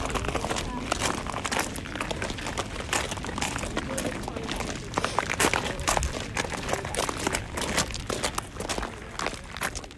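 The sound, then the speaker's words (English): A group of people walk along a hiking path of rocks and pebbles, producing a dense, continuous crunch and scuff of many overlapping footsteps throughout. “What you just heard was the sound of me and a group of people on a hiking path made of rocks and pebbles.”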